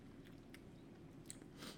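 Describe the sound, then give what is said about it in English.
Faint, soft crunchy chewing of a Sonic cheeseburger, a few quiet bites and mouth sounds close to the microphone. “Yep, tastes like a Sonic cheeseburger.”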